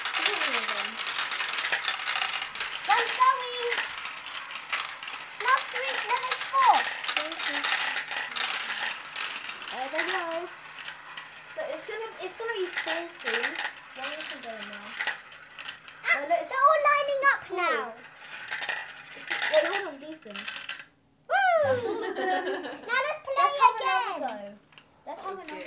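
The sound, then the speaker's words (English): Marbles clack and rattle down a marble run in a continuous ticking clatter while a child and others talk over it, the clicking running beneath the voices throughout. “This is a marble thing. Let's go. Oh, one fell in front of you.”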